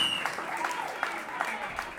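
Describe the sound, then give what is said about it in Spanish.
Audience applause for the hosts of an event, a steady wash of clapping across the whole stretch, fairly even in loudness, with a voice faintly mixed in. “Un aplauso a los amigos de Copey.”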